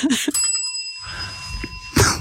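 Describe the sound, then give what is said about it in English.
A bell is rung once, giving a bright, shimmering tone that sustains and slowly fades while people talk before and over its ringing decay. “I'm like, oh no. I never do the pregnant pause with the bell.”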